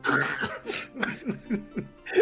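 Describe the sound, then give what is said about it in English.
A woman's harsh, rasping coughs, acted out as coughing up blood in a fantasy tabletop game, come in a rapid run of many throaty bursts. “And she coughs up more blood.”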